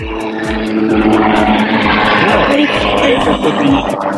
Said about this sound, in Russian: Это вертолет пролетел.